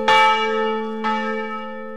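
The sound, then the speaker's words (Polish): A newly cast church bell with finely harmonized tones, standing in a cathedral courtyard before being hung in a tower, struck three times about a second apart, each loud clang leaving long, sustained ringing overtones that carry into the next strike. “Dzwon wyszedł niemal perfekcyjnie, wszystkie tony zostały perfekcyjnie zharmonizowane.”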